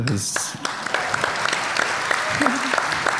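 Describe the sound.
Applause for a ten-year-old child: a dense, steady patter of many hands clapping, moderately loud and even throughout, with no clear breaks.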